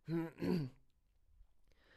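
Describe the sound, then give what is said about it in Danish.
A police officer clears his throat with a short, two-part voiced rasp, after which near silence follows. “Betjenten rømmer sig.”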